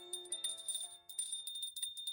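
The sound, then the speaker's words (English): A hand bell rung upstairs: faint, repeated tinkling rings in irregular bursts, with a sustained high metallic tone ringing through. “What's that? Oh, just ignore that. It's my sister upstairs. She's been off her rocker for years, and she'll play with that bell when she's bored.”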